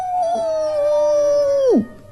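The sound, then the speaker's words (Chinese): A voice imitates the howl of a giant werewolf. The loud, sustained "awoo" holds a steady pitch, then drops sharply and cuts off at the end. No other sounds are heard. “一个特别特别特别巨大的狼人。嗷呜！”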